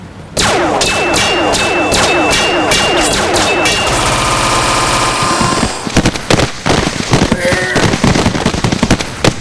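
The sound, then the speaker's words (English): Weapon explosions in a video game: dense, loud bursts of rattling gunfire and blasts run without a break, then give way to choppier, more separated cracks and booms in the second half. “My favorite weapons can blow them up.”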